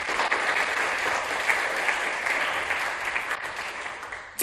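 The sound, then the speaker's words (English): Sustained audience applause welcoming a speaker to the stage: dense, steady clapping from a crowd that holds at an even level, then thins slightly near the end. “I'd like you to give him a very warm welcome.”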